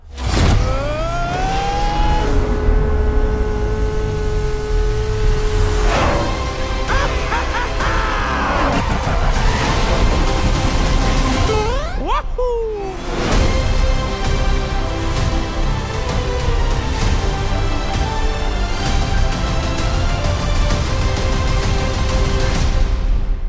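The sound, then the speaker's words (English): Trailer audio for The Super Mario Bros. Movie (2023), an animated film: a dense, loud mix of music and sound effects, with engine-like revving and a brief sweeping drop midway before the mix resumes. “And that was the trailer for the Super Mario Brothers movie.”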